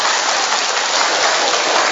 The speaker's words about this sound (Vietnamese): cho một tràng pháo tay điều tôi cắt nghĩa tại sao đúng.